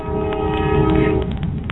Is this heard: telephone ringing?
no